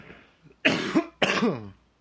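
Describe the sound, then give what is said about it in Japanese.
Two loud coughs from a person with a cold, each a sharp burst trailing into a rough voiced tail, separated by a short gap. “風邪ひいてんですからやめてくださいよ、もう。咳でんですよ、もう。”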